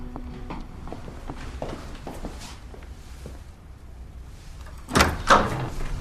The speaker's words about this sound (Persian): بایستا بایستا بایستا من در رو باز میکنم